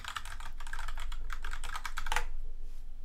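Rapid clicking of a computer keyboard as a web address is typed in, a fast, uneven run of many light key presses that stops after about two seconds.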